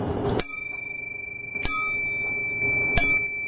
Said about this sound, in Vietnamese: Quý vị đại chúng có nghe tiếng chuông này không?